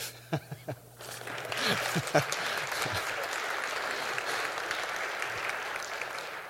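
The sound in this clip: An audience claps to welcome a reverend as the invited guest speaker. A few isolated sounds come first, then full applause swells up and carries on evenly to the end.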